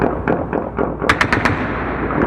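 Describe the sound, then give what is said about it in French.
Gunfire crackling through the night in Kabul, a ragged run of sharp shots with a tight burst of four loud cracks in the middle, set against a constant rumbling background with no voices. “Aussitôt la date de l'Aïd annoncée par les responsables talibans, des tirs ont commencé à déchirer la nuit dans Kaboul.”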